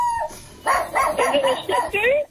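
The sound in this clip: A hound dog howls in a loud, wavering string of whining yelps with bending pitch, after a quieter opening moment.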